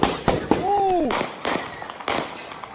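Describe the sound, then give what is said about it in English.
A handgun fired into the air: several sharp, loud cracks at irregular intervals, each with a quick decay. “you hear a shot go off because someone fires a handgun into the air.”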